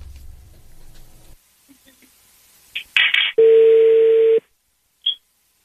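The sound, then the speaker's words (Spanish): A telephone line tone plays while a call is being placed. A low hum gives way to a few short electronic bursts, then a single steady tone lasts about a second, followed by one brief blip. “Ok, vamos a marcarle.”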